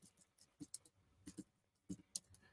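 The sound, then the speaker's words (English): Quiet typing on a computer keyboard during a sermon-style teaching session: a few faint, sparse key clicks at irregular intervals, with near silence between them. “I'm just gonna type here.”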